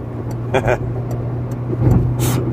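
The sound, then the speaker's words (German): A car driving on the Autobahn at about 70, with a steady low engine and road hum running under people talking inside the vehicle. “Och Mädchen, mussten jetzt 70 auf der Autobahn fahren.”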